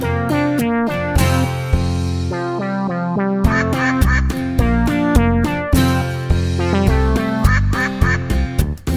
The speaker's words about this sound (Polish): Kwa, kwa, kwa, kwa. Taką mowę kaczka ma.